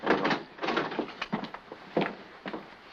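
A key rattles and clicks in a door lock as the door is unlocked and opened: a run of scraping, jingling metallic clicks and handling noises of varying loudness.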